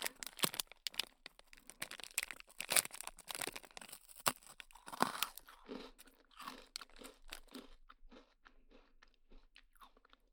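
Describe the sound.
Crunchy cookie being bitten and chewed: many sharp, dry crunches and crackles, dense and loud at first, then sparser, softer chewing bites toward the end, with no talk.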